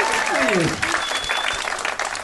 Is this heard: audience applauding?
yes